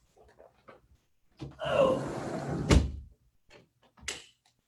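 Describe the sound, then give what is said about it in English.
A door being pushed shut to block traffic noise: a swishing rustle as it swings, ending in a sharp thump, with a few faint soft knocks before and after. “I'm just gonna close this door here because some cars are going by”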